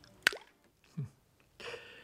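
False teeth dropped into a glass of water make a single sharp, faint plop, followed by a soft low thump and a short breathy hiss.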